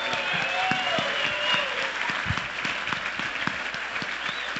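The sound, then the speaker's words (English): An audience applauds at a live address honoring military service members. Thick, continuous clapping stays at a steady moderate level throughout, with some voices mixed in. “big round of applause for our great men and women of the military”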